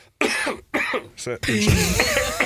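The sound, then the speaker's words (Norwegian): Coughing after choking on food, with harsh bursts broken by short gasping pauses and mixed with voiced, speech-like sounds. “jeg beklager det, jeg satt den i halsen”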